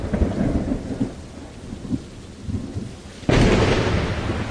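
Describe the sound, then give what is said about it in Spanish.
A heavy rain downpour, opening with low, rolling thunder rumbles over light rain, then abruptly swelling into a loud, dense, steady hiss of pouring rain that holds to the end, with no voices. “milagrosamente enviaron un fuerte chaparrón”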